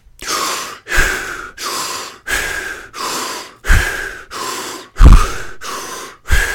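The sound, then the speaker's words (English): Rapid, deep breathing during a Wim Hof breathwork round: many strong inhale-exhale cycles in a steady, fast rhythm, each a loud breathy rush with no talking. “so do 30 of those breaths, inhale, exhale, at a, at a faster pace.”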